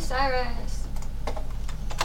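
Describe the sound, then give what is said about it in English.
Fingers type on a computer keyboard in a fast, uneven patter of light clicks. A brief voice is heard at the start. “Damn, I can't type.”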